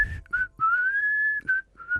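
A person whistles to imitate an old man whistling in a sauna. The short, clear tune has a few notes and one long steady held tone, and it is fairly faint.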